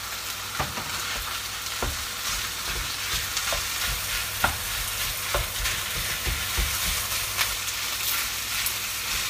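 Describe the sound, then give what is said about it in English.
Minced meat fries in a pan with a steady, crackling sizzle. Many soft scrapes and taps from stirring recur at irregular intervals over the hiss, with no talk. “Okay. In goes the mince.”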